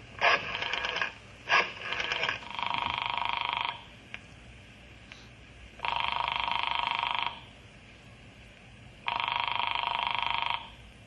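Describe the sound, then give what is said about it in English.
Telephone ringing on a call placed from an office: a few short, choppy bursts, then three long buzzy rings separated by steady pauses, over a low background hum. “I'm going in the office now and call Dr. Horace Talbot.”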